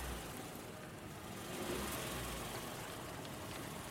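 Engine of a Saipa Pride car pulling away, heard as a steady, even rumble with a broad hiss and no clear change in pitch or loudness.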